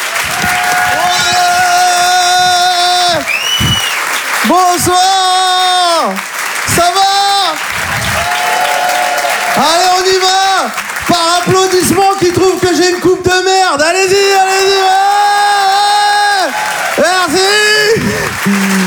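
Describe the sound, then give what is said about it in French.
Theatre audience applause with cheers and whoops greeting a comedian at the Apollo Théâtre, continuous and loud throughout, mixed with strong sustained tonal notes. “Faites du bruit s'il vous plaît pour David Azria.”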